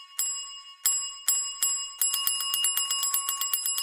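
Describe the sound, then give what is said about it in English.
A small bell hanging on a doorway rings in four separate bright strikes, then breaks into rapid, continuous jingling at a steady high pitch. “a bell begins to ring. and it's a little bell hanging on his doorway.”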